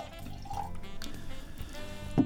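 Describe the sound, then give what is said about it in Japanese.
Red wine, a 2017 Château Mercian, being poured into a glass: a soft gurgling trickle with light drips, faint and unbroken, ending in a brief brighter splash. “早速注いでみたいと思います。 今日は赤で来ましたか。”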